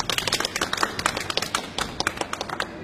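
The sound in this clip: Clapping from an audience welcoming a speaker in a staged Chinese folk comedy scene set in a village, many sharp, separate claps in an uneven, fairly sparse rhythm with no voices over them.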